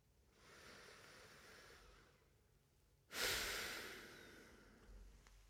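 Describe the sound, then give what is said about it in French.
Slow, relaxed breathing during a relaxation exercise: a long soft inhale, a brief pause, then a stronger airy exhale that gradually fades, faint and with no talk. “il est sûr que le fait de respirer comme ça, on relâche et on se détend.”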